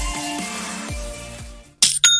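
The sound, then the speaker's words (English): A bright two-strike chime announces a new sale on an online store platform. It rings out sharply near the end, right after a fading stretch of music with low, sliding tones. “Hey, Jim, did you hear that? It's the sound of another sale on Shopify.”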